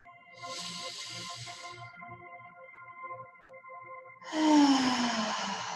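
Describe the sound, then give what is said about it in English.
A deep breath drawn in and then let out: two soft, breathy hissing passes separated by a short pause, the second slightly louder, over a quiet sustained musical drone. “Now let's take a deep breath in.”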